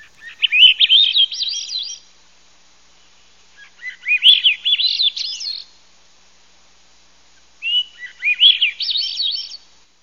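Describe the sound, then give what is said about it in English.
Song of a secretive thrush, a close cousin of the robin: three musical, warbling phrases of rapid high notes, each about two seconds long and separated by pauses, sung alone. “it's first cousin to the robin and the buried thrush. So it's about that size, but it's very, very secretive, but it has a beautiful, beautiful song.”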